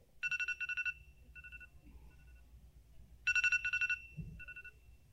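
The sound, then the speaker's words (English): An iPhone's default alarm ringtone, Radar, plays bright electronic beeps in two bursts of rapid, evenly spaced pulses separated by a pause, with softer, sparser beeps trailing each burst over a low background rumble. “So some of you might not use iPhones, but this is the default alarm ringtone for an iPhone. And if you didn't know, it's called Radar.”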